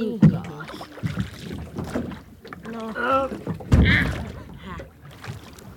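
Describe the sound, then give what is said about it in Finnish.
Oars rowing a motorboat fitted with two sets of oarlocks: irregular splashing and knocking strokes sound under people talking, with wind noise. “Moottorivene on niin hankala soutaa. Teillä on kahdet hankaimet siellä, niin se menee helpommin.”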